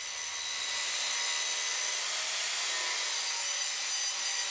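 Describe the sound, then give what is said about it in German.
An angle grinder with a coarse disc grinds the cutting edge of a steel blade clamped in a vise, giving a continuous harsh, hissing rasp that holds steady throughout with no voices. “Dazu spannt er das Werkstück in einen Schraubstock und es kommt wieder der Winkelschleifer zum Einsatz.”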